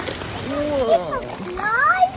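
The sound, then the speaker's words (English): Strong river rapids beside a riverside walk around Oldsford, a steady rushing wash of water heard under people talking. “We're on this gorgeous riverside walk which loops around Oldsford. The rapids are quite strong.”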